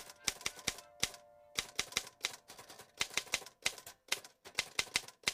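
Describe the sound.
A typewriter clatters as a sheet of paper is pulled out: many sharp mechanical clicks in uneven, rapid bursts, with short gaps between them.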